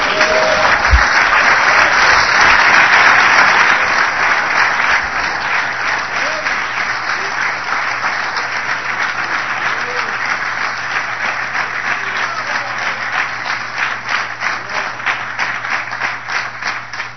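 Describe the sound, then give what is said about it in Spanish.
A church audience applauds during a service: dense, sustained clapping, loud at first, then easing slightly but continuing for about seventeen seconds. “Le damos un aplauso al Señor.”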